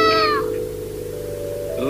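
A cartoon cat meows once with a falling pitch, then goes quiet. A second meow starts at the very end, and a low steady hum continues underneath.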